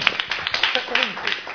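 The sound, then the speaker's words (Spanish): Audience applause at a radio event: a dense patter of many hands clapping, fairly faint and mixed with voices throughout. “Así que un aplauso.”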